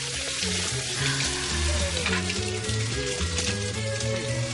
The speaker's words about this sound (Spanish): se limpia la sangre en el lavabo roto de su casa